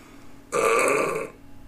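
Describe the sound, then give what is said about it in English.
A single loud, voiced burp lasting under a second, heard alone. “Burp.”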